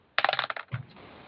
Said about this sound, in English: Roll your dice.